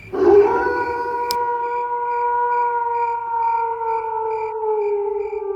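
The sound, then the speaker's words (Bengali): Jackals howling at night: one long, sustained, slightly wavering howl that sags in pitch near the end, with faint rhythmic cricket chirps pulsing steadily behind it. “একটানা ঝিঁঝি ডেকে চলেছে আবার তার সঙ্গে শেয়ালের ডাক যোগ হলো”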